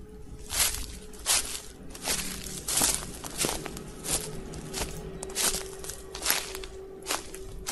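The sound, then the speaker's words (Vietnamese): Footsteps walk outside behind a wall: many soft, crunching steps fall in a steady, even rhythm over a faint constant hum. “Tiếng bước chân đó cứ đều đều vang lên. Có ai đó đang đi bên ngoài.”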